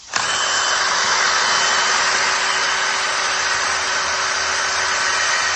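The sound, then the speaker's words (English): A hay drill, a power coring drill used to test hay on a farm, runs in a loud, steady, unbroken whine from its first instant to the end, with no voices. “So that's the sound of a hay drill.”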